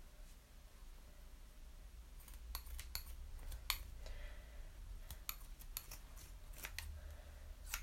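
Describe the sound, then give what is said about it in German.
Scissors cutting into a marked spot on craft material, giving many crisp, faint snipping clicks in irregular clusters over a low steady background hum, with no talk. “Ich schneide jetzt die Stelle ein, die ich mir markiert habe.”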